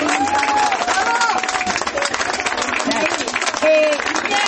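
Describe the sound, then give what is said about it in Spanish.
Crowd applause at an outdoor gathering honouring disappeared comrades: loud, dense, steady clapping throughout, with crowd voices mixed in. “A todos ellos, a todas ellas y a todos ellos un aplauso bien fuerte.”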